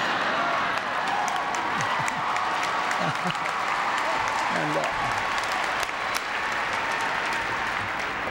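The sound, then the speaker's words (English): Cheering and applause from an audience at the University of Texas: a dense, steady roar of clapping with crowd voices mixed in throughout. “Perhaps the only thing even more unlikely was that I should ever have the opportunity to be cheered at the University of Texas.”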